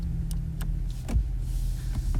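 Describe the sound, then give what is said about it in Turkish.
A car coming to a stop: a low engine rumble runs throughout, broken by a few sharp mechanical clicks and a heavier thud midway, with no voices. “Bekle bekle, ne yapıyorsun? Neden arabayı durduruyorsun?”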